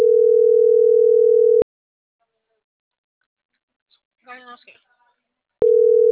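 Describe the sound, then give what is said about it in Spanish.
Telephone line tone while dialing a number that goes unanswered: a long, steady single-pitch tone, then silence with a brief faint voice, then the tone starting again abruptly. “No lo contesta. Lo estoy marcando.”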